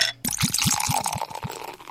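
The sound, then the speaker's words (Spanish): Liquid glugs from a bottle as a drink is poured, a steady series of quick, hollow gulps over a soft hiss. “Dígame la verdad y destapo la otra botella.”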